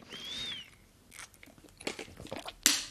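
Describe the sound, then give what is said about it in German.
Someone takes a quick sip of a drink, heard as soft, wet mouth and swallowing noises with a few faint clicks and a sharper, noisy burst near the end. “Ich muss nur kurz einen Schluck trinken, weil ich immer noch nicht wieder fit bin.”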